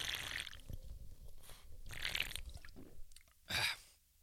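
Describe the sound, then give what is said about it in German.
Someone takes a short sip of a drink. Faint slurping and swallowing noises are followed by a brief, breathy exhale, all quiet and without talk. “ein kurzer Schluck nochmal. Dass ihr auch hört, dass ich was trinke.”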